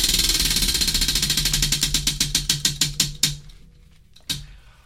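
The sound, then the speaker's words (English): A big prize wheel with names on it spins on a live TV show. Its rapid ratcheting clicks slow steadily, spacing out until the last few come far apart and the wheel stops. “Got the big spinning wheel. Got various names on it.”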